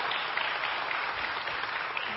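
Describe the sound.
A church audience applauds to welcome a pastor, a dense, even wash of clapping that holds steady at moderate loudness throughout, with no talk over it.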